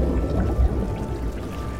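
A rushing torrent of water roars in a dense, continuous wash of churning noise, heavy in the low end and steady throughout, with no talk.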